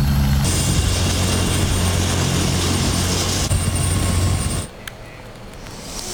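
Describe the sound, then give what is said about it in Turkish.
An ambulance helicopter: a loud, continuous rotor and engine roar with a low throbbing hum underneath, holding steady before dropping in level near the end. “yaklaşık 1,5 kilometre boyunca sedye ile taşınan Aziz Karaca ambulans helikopterle Erzurum'a sevk ediliyor.”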